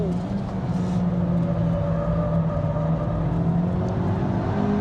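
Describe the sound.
A Cupra car driven hard around a track with dirt-edged corners, its engine giving a loud, continuous, steady drone with strong tonal harmonics throughout.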